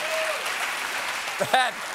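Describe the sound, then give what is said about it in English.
Parents in an audience applaud a joke with a steady wash of clapping throughout, and a brief voice surfaces near the end. “That is actually all the parents clapping because they know that joke is true.”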